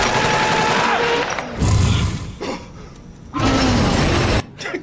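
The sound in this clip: Rapid gunfire from a played video: dense bursts of automatic shots in a few loud stretches, separated by brief lulls, with sharp cracking and rumbling noise throughout.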